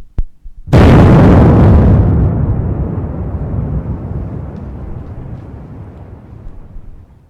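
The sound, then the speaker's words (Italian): A single bomb explodes at night: after a tiny click, a sudden loud blast erupts and then a long, deep rumble slowly fades away over several seconds. “Quella bomba mi ha resa adulta in un momento.”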